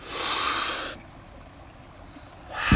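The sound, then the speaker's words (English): A deep inhale through the mouth during a guided breathing exercise: a broad, airy hiss of about a second, followed by near silence. The start of another breath swells in at the very end. “And then we're going to begin with a deep inhale through the mouth.”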